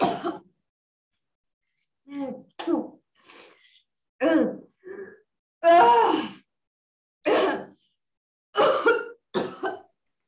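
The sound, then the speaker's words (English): Repeated coughing and throat-clearing during a group breathwork training session, coming in many short, irregular bursts of rough, breathy sound with brief pauses between, with no talk over them. “Keep the cough going.”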